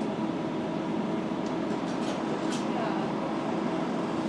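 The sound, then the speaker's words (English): Interior of a Docklands Light Railway train near Cross Harbour on a ride. A steady, continuous rumble and hiss of the moving carriage runs throughout at an even level. “This is Cross Harbour. Oh, right. I'm on the DLR now, so I might cut out.”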